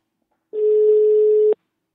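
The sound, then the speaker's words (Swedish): A single steady telephone ringing tone as a call is placed, one plain low beep lasting about a second that starts and stops abruptly, heard alone without voices. “nu tänkte jag faktiskt att vi ska ringa upp en av eh, produktspecialisterna på Invacare”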